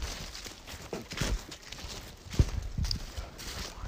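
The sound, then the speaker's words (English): Footsteps of hikers walking down a path on Pharoh Mountain, a faint, steady series of soft, irregular crunching steps. “We're walking down the path. We're walking down the floor.”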